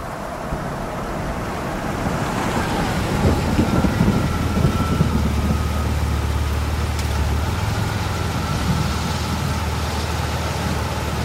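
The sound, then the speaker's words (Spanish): The first raindrops of a rain shower fall in a steady, dense hiss that continues for the whole stretch, with a low rumble swelling underneath midway and no voices. “Las primeras gotas de lluvia rozan los delicados cuernos del caracol,”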